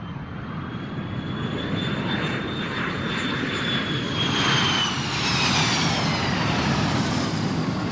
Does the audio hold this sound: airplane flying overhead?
yes